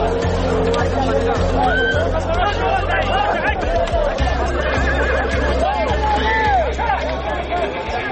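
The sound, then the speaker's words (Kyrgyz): Horses neighing: hardy, sturdy Lakai horses kept for the mounted goat-grabbing game. Several shrill whinnies rise and fall over crowd chatter and a steady low rumble, with occasional hoof clops. “Мына ушул улакларга эң жада чыдамлы, бакыбат чайыр атлар сапланган.”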